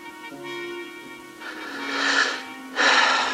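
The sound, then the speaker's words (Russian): Someone blows their nose into a handkerchief, letting out two rough, breathy bursts of air, the second short and sharp, after a quieter opening moment. “Сморкается, убирает платок.”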